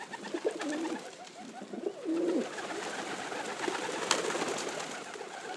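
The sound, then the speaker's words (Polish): A feral pigeon coos in a couple of soft, low, rolling phrases over a steady background hiss. “gołąb miejski,”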